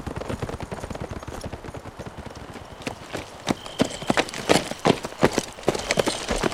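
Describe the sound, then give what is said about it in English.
Horses' hooves clip-clop in a steady, busy rhythm as riders leave town, with many hoofbeats. The sharper, louder strikes come through in the second half. “Matt and Sam waved at her and rode out of town.”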